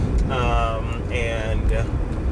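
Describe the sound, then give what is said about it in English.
Steady low road rumble and wind noise fill the cabin of a moving car, continuous and even beneath a person talking throughout. “I'm currently cruising in my vehicle.”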